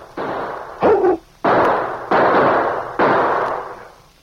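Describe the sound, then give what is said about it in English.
Gunshots from a masked man in a radio drama: five sharp, loud bangs in quick succession, each with a decaying tail. One is briefer and carries a ringing tone, with no voices between them. “What happened? Masked man shot.”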